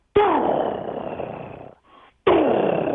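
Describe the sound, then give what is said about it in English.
A voice imitates a male alligator's breeding-season bellow in two rough, loud growling bursts. The first is long and fades out, and the second starts abruptly after a short pause. “They bellow. The males, especially during the breeding season. Coming up now, March and April, if you go out to the Everglades, you'll hear them. It's not a roar. It's not that. It's a bellow. It sounds like you're trying to start a weed eater.”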